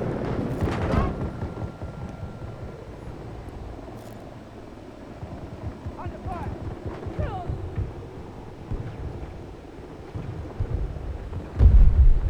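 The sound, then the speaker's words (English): A frag grenade explodes in a video game with a deep, rumbling boom, one heavy blast landing near the end over a low continuous rumble, with a player's voice talking alongside. “Oh my god, he threw a frag grenade at where they were landing.”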